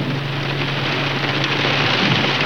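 Steady rain falls in a continuous, even hiss that stays moderately loud throughout, with a low steady hum underneath.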